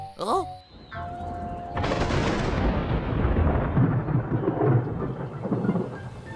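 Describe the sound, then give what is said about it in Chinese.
Heavy rain bursts in suddenly after a few brief tones and pours loudly and steadily as a dense hiss. Deep thunder rumbles roll beneath the downpour. “啊，下雨啦！这雨也太大了吧！”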